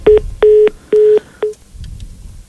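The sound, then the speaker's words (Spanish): Electronic tones as a phone call cuts off: four clear beeps, the middle two longest and the last one short, followed by faint low noise. “Bueno, se cortó ahí la llamada, no sé qué sucedió por ahí.”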